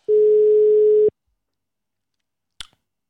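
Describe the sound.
Ringback tone of an outgoing telephone call, a single steady mid-pitched tone lasting about a second, followed by silence and one brief click.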